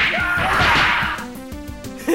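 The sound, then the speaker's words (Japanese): Punch impact effect from an audio drama fight scene, a loud crashing whack with a noisy burst that gives way to a ringing tonal tail. “さあ来い、伊集院パンチ。”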